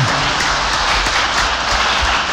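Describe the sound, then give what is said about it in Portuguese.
Applause from a group at a religious gathering is a dense, steady crackle of many hands clapping. It holds at an even, fairly loud level throughout, with no talk over it. “Exato, uma salva de palmas para ela.”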